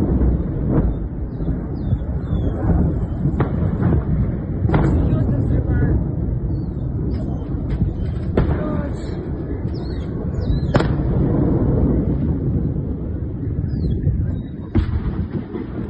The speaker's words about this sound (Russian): взрыв, слышишь?